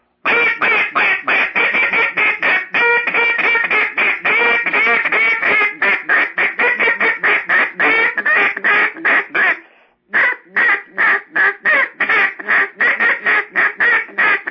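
Duck call blown as a bouncing hen call, also known as a Cajun squeal: a long run of many loud quacks in a quick, steady rhythm, a brief pause, then a slower, more spaced series of quacks.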